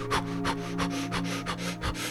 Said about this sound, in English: Let's intensify our breath now.